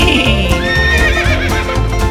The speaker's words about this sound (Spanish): En la granja del tío Nacho, el caballo hace ii.